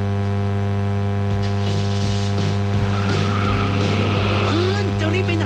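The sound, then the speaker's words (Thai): A car engine left running while the car stands idle: a steady, low droning hum holds throughout at an even loudness. “หยุดเลยสตาร์ทรถทิ้งไว้เปลืองน้ำมันนะ”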